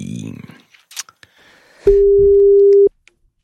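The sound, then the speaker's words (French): Telephone line tone as a number is dialled for an early-morning call: a few brief clicks, then a single steady, loud tone lasting about a second before it cuts off. A short voice is heard at the start. “je te laisse composer le numéro, nous allons voir ce que ça donne, c'est parti.”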